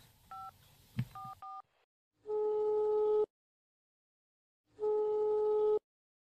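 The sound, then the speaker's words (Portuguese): A telephone number is dialed in a few quick touch-tone beeps, then two long, steady ringback tones sound with a silent gap between them, and the call goes unanswered. “Ela não está atendendo. Liga de novo.”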